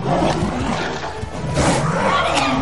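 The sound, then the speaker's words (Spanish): Roaring and snarling from a big cat as wolves attack and pin it down in a jungle fight. The sound is loud and continuous, with rough growling bursts that swell again in the second half. “Raxa embiste a Sirkan. Otros lobos la ayudan e inmovilizan a Sirkan.”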